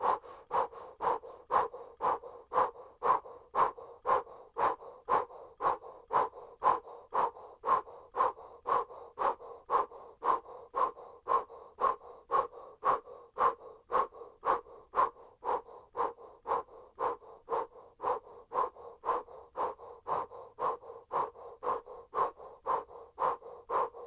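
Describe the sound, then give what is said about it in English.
Rapid breath-of-fire breathing, forceful breaths pumped in and out through an O-shaped mouth, with many quick, even puffs in a steady, unbroken rhythm for the whole stretch. “Pump the belly in and out. Powerful breath of fire in and out through an O-shaped mouth. Pump the belly. Breath of fire.”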